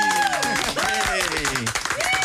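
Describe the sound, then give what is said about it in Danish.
A studio audience claps and cheers to welcome back a returning band, a dense patter of hands mixed with raised voices and talk. “Og det er den velkomst, vi helst gerne vil give alle gæster, vi har her. Men vi burde faktisk lave en længere klapsalve for jer”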